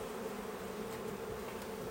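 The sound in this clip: Honeybees buzz around a hive in a steady, continuous hum of many wings, a low even drone of moderate loudness with no pauses.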